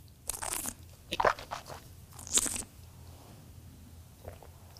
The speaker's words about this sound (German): Ich nehme mal einen Schluck. Nimm einen Schluck.